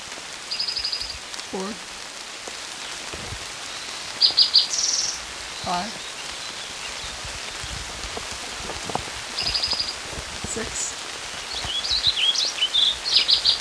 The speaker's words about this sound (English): Eight, Warbling Vireo.